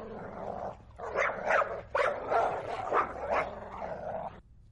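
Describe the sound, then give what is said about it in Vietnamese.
A yellow-furred dog barks loudly with its snout raised at a house in a small alley. It gives a rapid, many-bark series of sharp, noisy yelps at a steady loud level, with no talk over it. “Bên trong, con chó có bộ lông màu vàng đang hếch mõm lên sủa inh ỏi.”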